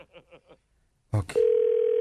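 A telephone line tone during an unanswered call: a few short sounds, a brief louder burst, then a steady, unbroken mid-pitched tone that holds level to the end.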